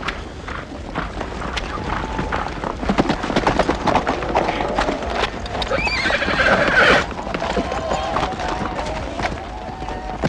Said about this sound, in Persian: برویم اسب من.